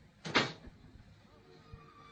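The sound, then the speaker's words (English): A door closing with one short, fairly loud thud, followed by a couple of faint low knocks over a quiet background. “He's gone. The door has closed behind him.”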